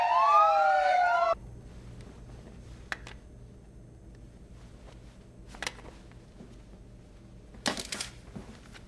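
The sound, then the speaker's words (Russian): A police car siren wails loudly from a car left on the street, its tone sweeping up and down. It cuts off abruptly after about a second, leaving near silence broken by a few faint clicks. “Полицейская машина, оставленная Джеком, все еще на улице.”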